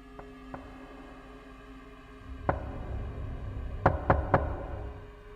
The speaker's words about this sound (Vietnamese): thế gõ cửa có cái việc gì đấy?